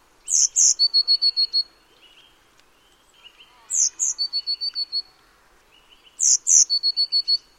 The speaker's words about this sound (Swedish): Nu får ni lyssna på blåmesen redan innan här, så behöver ni inte gissa.